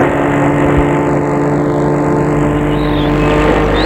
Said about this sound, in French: Enfin, la voiture s'arrête devant une grande propriété entourée de hauts murs.